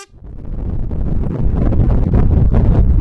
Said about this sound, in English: That is the sound of the wind whistling over the top of the car that I'm travelling in.